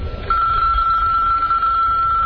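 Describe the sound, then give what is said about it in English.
A telephone rings as a steady, unbroken high electronic tone that starts after a brief moment and holds to the end over a low background rumble. “answer your phone.”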